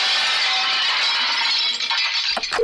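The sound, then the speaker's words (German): Loud, sustained crash of breaking dishes and glass as canteen food is sent down a treadmill, a dense clatter for about two seconds before a few sharper clinks at the end. “Während unserer Fitnesswochen wird Ihr Fressen ab sofort auf dem Laufband ausgegeben. Sie hören es ja im Hintergrund.”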